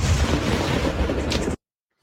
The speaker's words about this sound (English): This is Israeli footage showing the drone coming down on a base in Shlomi. Boom!